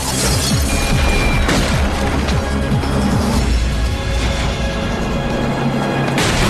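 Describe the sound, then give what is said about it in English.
Walls being pulverized in a sound effect: a dense, loud run of many crashing, crumbling impacts and low booms continues without a break for about six seconds. “then begins to pulverize several walls in his bid to make good his escape.”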